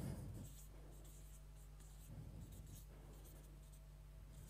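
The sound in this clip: Faint scratching strokes of someone writing the word Hausordnung on a board, a few continuous passes with brief pauses between them, heard alone without talk.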